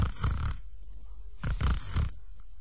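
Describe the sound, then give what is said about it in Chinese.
Snoring imitated by a storyteller's voice, portraying a monk dozing with eyes closed during a sermon in a monastery: two loud, rasping snore bursts separated by a quiet pause. “他说到这儿一看呢，鲁智深在那闭着眼睛打呼噜呢”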